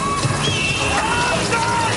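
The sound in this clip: Water splashing and sloshing as a woman is held under water, a dense, continuous churning noise with raised voices shouting over it.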